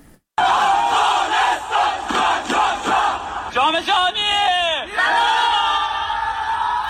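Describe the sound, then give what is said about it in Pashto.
Crowds cheer to welcome Afghanistan's national futsal team with loud, sustained shouting and rhythmic chanted pulses, followed by rising and falling whoops. “نړیوال جام ته د افغانستان د فوټسال د ملي لوبډلې لارموندنه په بیلابیلو ولایتونو کې د خلکو له تود هرکلی سره مخامخ شوه.”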